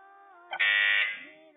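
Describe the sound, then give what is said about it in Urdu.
A quiz contestant's buzzer sounds during a deciding round: a single harsh, loud buzz lasting about half a second over soft, sustained background tones. “Buzzer بجائی ہے”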